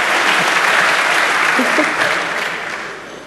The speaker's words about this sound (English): Applause from the audience.